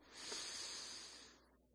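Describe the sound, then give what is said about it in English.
A deep breath drawn in through the nose, with the mouth closed: one soft, airy hiss that swells and then fades over under two seconds. “Now, close your mouth, take the same deep breath, and use your nose.”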